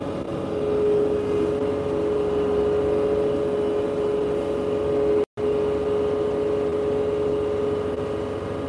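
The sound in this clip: A loud engine runs at full throttle while clearing snow, holding a steady, unchanging droning tone with no clear rise or fall in pitch. The sound cuts out for a moment partway through, then resumes at the same level.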